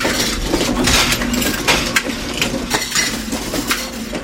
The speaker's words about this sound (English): This is the sound of hope. Or at least the sound of hope being printed out on paper, cut into little circles, and stamped onto metal discs with pins on the back.